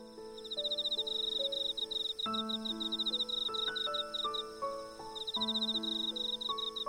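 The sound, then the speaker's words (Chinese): Rapid pulsed chirping of a cricket rubbing its wings comes in trilling bursts, riding over a steady melodic tune that plays underneath throughout. “能利用摩擦翅膀发出声音、节奏感超好的蟋蟀姐姐”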